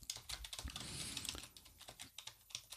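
Faint, rapid typing on a computer keyboard: many quick keystroke clicks in an uneven rhythm, with no voices.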